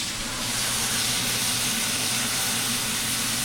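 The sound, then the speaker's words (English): Sizzling of white wine poured into a hot pan with sugar snap peas to deglaze it, a steady, loud, unbroken hiss lasting the whole clip with no voices. “We're gonna add just a little bit of white wine.”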